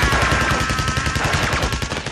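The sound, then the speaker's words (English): Rapid machine-gun fire from an animated war cartoon in which wolves in military uniforms attack: a continuous stream of fast, evenly spaced sharp shots, loud throughout. “Wolves with military uniforms and machine guns.”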